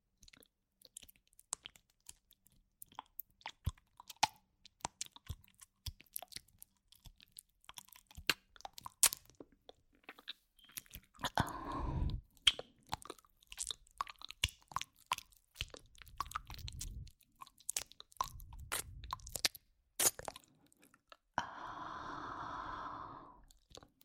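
Wet chewing and eating sounds, with many sporadic crunches, bites and squishy clicks at a faint level, coming in irregular clusters throughout.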